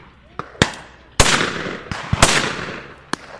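Sharp blasts from 12-gauge game shotguns fired at high-flying pheasants during a driven shoot, several reports of varying loudness spaced irregularly, each with a brief trailing decay.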